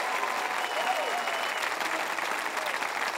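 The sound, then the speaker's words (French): An audience at a sermon applauds, with a dense, continuous wash of clapping that holds at an even, steady loudness throughout, without breaks or peaks. “Oh, applaudissez plus fort que ça.”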